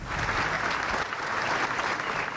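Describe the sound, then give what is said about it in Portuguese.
Long, loud applause from hundreds of people gathered in the Alfândega courtyard in the Azores for the flag-lowering that closed the Portugal Day celebrations, a dense, steady wash of clapping that holds throughout. “Foi recebido com um longo aplauso das centenas de pessoas que foram até ao pátio da Alfândega para o arriar da bandeira.”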